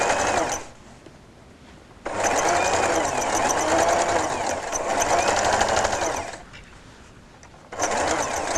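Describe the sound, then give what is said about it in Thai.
A sewing machine stitches fabric along a pressed crease, its rapid, even buzz running in a long stretch between shorter bursts, with brief quiet pauses where the stitching stops. “แล้วเราก็ค่อยๆเย็บนะคะเย็บตามที่เรากดรอยไว้นั่นแหละค่ะนะคะเย็บไปเรื่อยๆนะคะ”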